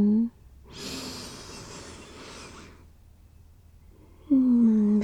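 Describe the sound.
A person takes one long, deep breath in, a steady airy hiss lasting about two seconds that then fades to a quieter stretch. A voice speaks briefly at the start and end.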